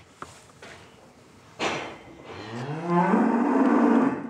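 A calf moos in a barn where newborn twin calves are kept, a drawn-out, loud bellow that swells toward the end, following a few sharp knocks and a sudden clatter.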